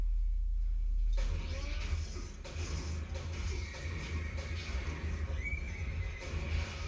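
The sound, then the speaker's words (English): A horse whinnies in a film scene, a thin, wavering call set against a dense, noisy soundtrack with a heavy low rumble that begins abruptly after a quiet opening second. “I'll be snaffling one of them horses.”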